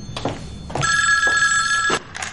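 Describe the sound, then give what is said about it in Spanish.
A telephone rings at home in one loud, sustained electronic trill of just over a second, with a few soft knocks and clatters before and after it. “La filósofa se levanta y coge el teléfono.”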